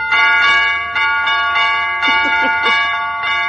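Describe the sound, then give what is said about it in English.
Broken doorbell chimes ring in a loud, sustained cluster of overlapping bell tones, with repeated strikes layering into a shimmering, slightly discordant ringing that swells and renews over several seconds with no voices. “What did that doorbell say? It's broken”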